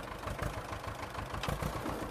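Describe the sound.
An old, worn-out farm tractor engine running with a steady, rough, chugging rumble that holds at an even loudness throughout.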